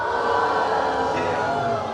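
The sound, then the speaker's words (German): Loud booing from an audience at a knights' tournament show, jeering a cowardly knight, a sustained chorus of many voices holding a drawn-out low boo at steady volume throughout. “müsst ihn sofort bestrafen mit einem lauten Buh. Und ich glaube, das könnt ihr alle noch messen. Alle gemeinsam ein lautes.”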